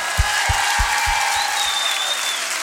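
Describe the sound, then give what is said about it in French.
Audience applause for singer Lilian Renaud at a tenth-anniversary concert in Roanne: dense, steady clapping at an even level throughout, with a few soft low thuds in the first half. “Mais un maximum d'applaudissements pour Lilian,”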